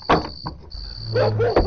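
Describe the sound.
A door is opened, with short clattering bumps and a longer low scraping sound over a faint steady tone.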